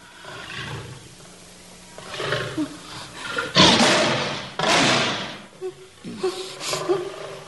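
A lion roars in a few loud, rasping bursts that rise out of quieter background noise and break off between calls.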